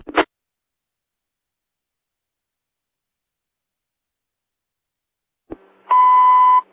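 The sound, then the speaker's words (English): A fire station alarm sounds as a short burst at the start and then a long silence. A click follows, then a single loud, steady, buzzing tone of under a second. “Bell's ringing.”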